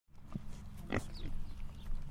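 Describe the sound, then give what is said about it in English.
Pigs grunting and oinking on a pasture-raised livestock farm: a few short, snorty grunts over a continuous low, rough rumble of animal noise. The sound is moderately loud and there is no talk. “Hi, pigs! So these are the big guys.”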